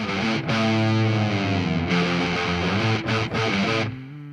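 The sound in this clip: Humming voice inside a played music track: sustained, low harmonic tones held over distorted, effects-laden music, with a few brief breaks between phrases.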